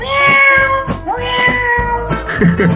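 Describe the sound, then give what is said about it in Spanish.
A human voice imitating a cat's meow, producing a few loud, drawn-out, tonal meows with strong harmonics in quick succession. “lo que podemos hacer es hacer miau todo el rato. Miau, miau, miau, miau, miau. Joder, vaya mierda de gato. Mira, mira, mira cómo lo hago yo.”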